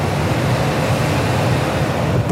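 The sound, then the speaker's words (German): A river cargo ship on the Rhine casts off and gets underway, making a steady, loud low rumble of engine and rushing water that stays constant throughout with no distinct events. “Die Matrosen machen die Seile los, die MS Bern nimmt Fahrt auf.”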